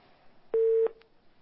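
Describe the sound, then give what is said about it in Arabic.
A telephone tone after a dropped call: one short, steady mid-pitched beep of about a third of a second, clicking on and off, followed by a faint tail over a low background hiss. “طبعا انقطع الاتصال, فقد الاتصال.”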